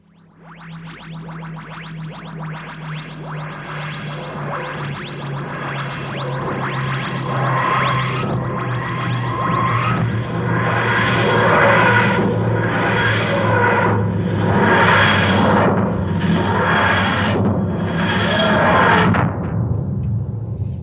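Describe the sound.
A landing sound effect builds over about twenty seconds, starting as a dense run of rapid repeating electronic sweeps over a low steady hum. It then turns into a slower series of broad, pulsing whooshing surges before cutting off abruptly.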